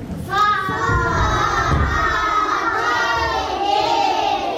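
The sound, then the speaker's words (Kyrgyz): Schoolchildren shout together in a first-grade classroom at a village secondary school, a loud, sustained chorus of young voices that starts abruptly and carries on without a break. “Саламатсыңарбы балдар? Бул Чоңалайдагы Буркан суу орто мектебинин 1-чи класстын окуучулары.”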